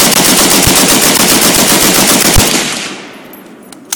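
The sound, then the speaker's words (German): Hotchkiss M1914, an air-cooled, gas-operated French Army machine gun from the First World War loaded with 8mm strips, fires a loud, rapid, unbroken burst for about two and a half seconds before the sound fades away. “Die französische Armee verwendete im Ersten Weltkrieg den luftgekühlten Gasdrucklader Hotchkiss M1914.”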